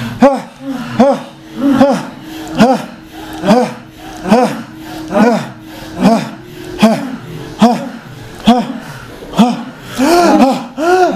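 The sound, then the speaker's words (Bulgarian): Heavy breathing during a guided breathing exercise: many loud, rhythmic in-and-out breaths with voiced, gasping edges, repeating at a steady pace for the whole stretch. “Каквото е, пусни го, дишай!”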